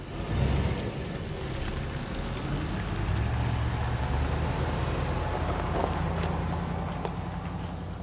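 Steady engine rumble of a company truck driving away, a continuous low drone under broad, even noise that holds at a constant level for about eight seconds.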